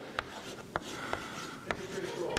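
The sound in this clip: Faint writing sounds, a few sharp taps with a thin, squeaky stroke drawn out between them, low in level throughout.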